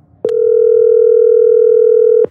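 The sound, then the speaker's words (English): A loud, steady telephone line tone sounds as a radio call-in caller connects: one unbroken hum lasting about two seconds, opened and closed by brief clicks, with no voices over it. “But I've got another caller on the line. Let's go to the caller.”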